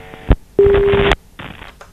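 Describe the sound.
Telephone line signal as the next incoming call connects to a phone-in quiz: three loud electronic tone bursts, a short one, a long steady one, then a medium one, with brief gaps of silence between them.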